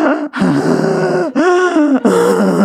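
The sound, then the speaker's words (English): A voice imitates a roommate's loud breathing: a few drawn-out, throaty, groaning breaths, voiced and fairly loud, each with a brief gap between. “it's my roommate breathes, and they breathe so loud. They're going,”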